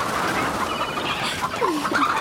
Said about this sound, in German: Na kommst du wohl her, du dummes Huhn? Och Mann, ich glaube, ich schaff's nicht. Ja, Hühner können ganz schön schnell sein.